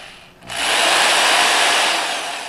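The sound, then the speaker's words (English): A power tool drives an anchor into a wall to hang artwork, giving a loud, steady whirring whine that starts abruptly and holds for about two seconds before easing slightly, with no voices. “screws an anchor into a wall to hang a piece of art”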